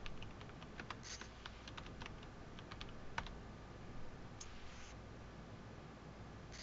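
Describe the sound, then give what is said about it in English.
Typing on a computer keyboard: quiet, irregular clusters of light key clicks over a steady low hiss, with no talk. “And then once you're in there, you're going to type this with a slash and a space.”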